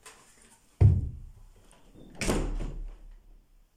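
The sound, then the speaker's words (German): A window being closed gives a sharp, heavy knock, then about a second and a half later a longer sliding rumble, with no talk. “Sie sprang aus ihrem Bett, um das Fenster zu schließen.”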